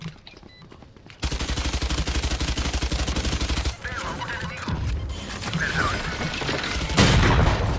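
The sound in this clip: Gunfire in a shooter video game, a shotgun among the weapons, starting with a dense, loud burst of rapid shots for a couple of seconds, then quieter game sounds and another heavy blast near the end.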